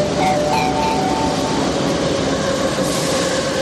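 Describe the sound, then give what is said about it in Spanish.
Steady, loud rumble of metro train carriages in motion, a dense continuous roar with no clear breaks or distinct wheel clacks. “Bajaremos a los vagones de metro a preguntar.”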